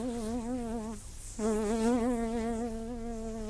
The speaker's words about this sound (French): Il ne peut s'empêcher de bouger quand la mouche s'approche de lui.